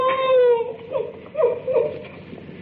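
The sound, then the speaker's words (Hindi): A woman crying, starting with a long, drawn-out wailing whimper and breaking into a few shorter sobbing bursts, fairly loud throughout. “ओहो, तो तू रोती क्यों है?”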